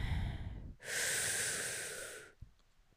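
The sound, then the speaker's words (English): A slow, deep breath in and out, heard as one long, airy rush of air that holds steady for over a second and then fades, with a faint click after it and no talking. “let's take a big, deep breath.”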